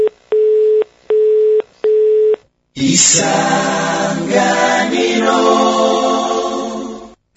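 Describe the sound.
A telephone busy signal after a call is hung up: three steady, mid-pitched beeps in an even on-off rhythm. After a short gap it gives way to a louder, dense harmonic sound.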